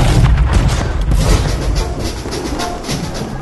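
A gunfire volley follows the command to fire: heavy, booming discharges with a rumbling low end, opening with a few sharp reports that fade into a sustained, rolling roar.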